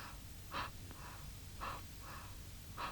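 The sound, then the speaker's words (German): A voice imitates slow breathing: three soft, evenly spaced breaths, faint over a low hum. “Hörst du sie atmen? So atmen?”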